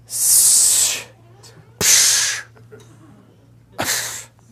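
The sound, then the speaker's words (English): A voice imitates a disapproving hiss: three breathy, high hissing bursts, the first longest and the last shortest, with short pauses between them. “You'll be a hissing. What is a hissing? People are going to be like,”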